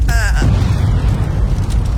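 A volcano eruption sound effect: a loud, continuous, deep roaring rumble that fills the whole two seconds without pause.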